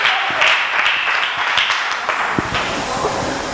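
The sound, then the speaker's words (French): Scattered clapping from a church audience supporting a woman about to give her testimony, moderately loud, with irregular sharp claps over a hissy, steady wash of applause. “On va l'acclamer pour la soutenir.”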